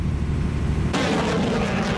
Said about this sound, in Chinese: 随着射击指令的下达，远程多管火箭炮对海上靶标实施精确打击。